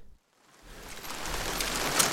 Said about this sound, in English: Okay, you'll note it's raining now.